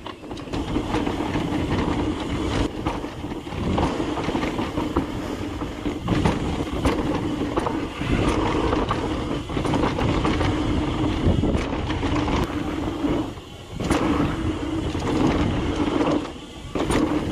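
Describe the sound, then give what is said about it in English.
An alpine luge sled rolls down its track with a continuous loud rumbling and rattling roar. The gritty, clattering texture holds steady and briefly dips a couple of times. “All right, top of the luge. Here we go.”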